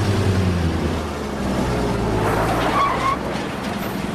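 A pickup truck drives down a sandy track, its low engine rumble steady beneath a continuous rush of gritty tire and road noise.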